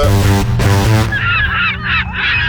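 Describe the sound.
A man's voice imitates a seagull, starting with a few loud, nasal honking squawks, then moving into higher, wavering, squealing cries, with no talking.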